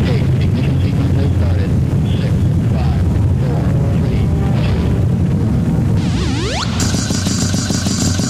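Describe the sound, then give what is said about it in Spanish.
A rocket takeoff sound effect following a countdown: a loud, dense, unbroken roar that holds throughout, with sweeping whistle-like tones cutting in near the end. “209 a control, preparados para despegar. Todos a bordo. 12, 11, 10, 9.”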